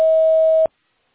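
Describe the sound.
A voicemail recording beep: one steady, clean mid-pitched electronic tone lasting just over half a second, loud and alone, cut off abruptly into silence.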